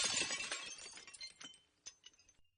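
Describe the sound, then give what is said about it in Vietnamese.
Kettle thrown against a wall and shattering: a bright, brittle crash followed by a scatter of tinkling fragments that thin out and die away, fairly faint overall. “Cái ấm nước bay trượt qua đầu Mai, đập thẳng vào bức vách kêu choang một tiếng, rồi rơi xuống đất bể tan tành.”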